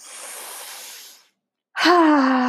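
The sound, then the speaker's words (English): A deep breath: a long airy inhale, a brief silent pause, then a louder voiced, sighing exhale that holds a steady tone. “So all we can do is take a deep breath.”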